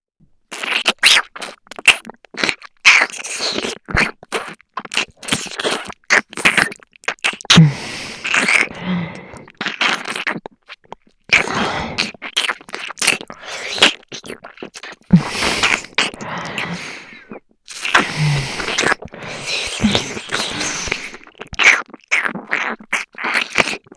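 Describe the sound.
Food being crunched and chewed: many crisp bites, crackles and scraping sounds arrive in dense, irregular bursts over a long stretch, separated by a few brief pauses.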